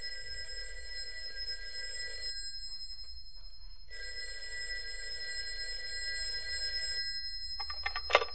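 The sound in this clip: A telephone rings repeatedly, two long, steady bell rings separated by a short silent gap, over a faint low hum.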